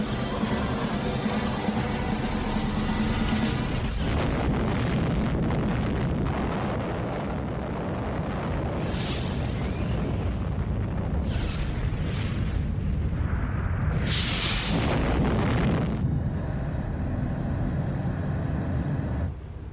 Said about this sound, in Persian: A uranium bullet fired down a barrel into a uranium target. Together, they started a nuclear chain reaction. Solid matter began to come apart, releasing untold quantities of energy.